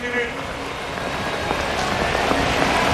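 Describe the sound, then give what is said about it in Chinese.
Rain falls on an outdoor athletics stadium as a steady, dense hiss of drops that holds an even level and grows slightly louder toward the end. “下雨影响运动员的表现，也影响场地内所有的器械，包括场地的条件。”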